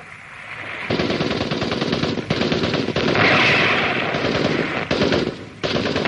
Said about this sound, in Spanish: De pronto, una ráfaga de disparos atraviesa tanto a la escultura como al hombre, que cae agonizante.